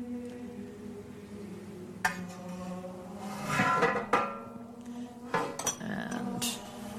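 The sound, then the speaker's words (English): Metal spoon clinking and scraping against a cooking pan while spooning out fat after browning, with a few sharp clinks over a low, steady hum. “spoon out the fat. What you want are just those little brown bits here. And just spoon just the fat.”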